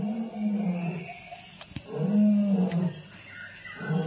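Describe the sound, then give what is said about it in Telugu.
A lion roaring in pain gives a few deep, drawn-out, groaning roars that swell and fade in waves. The roars are loud, with no talk. “అప్పుడే ఆ సింహం చేసే గర్జనలు బాధ వినిపించింది Androcles కి.”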